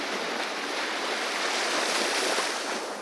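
Sea waves washing onto a beach: a steady, loud, continuous hiss of surf with no distinct breaks or pauses, heard alone without voices.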